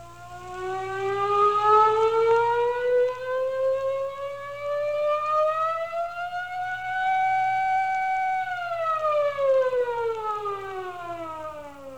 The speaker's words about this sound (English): He got into his car and started his siren.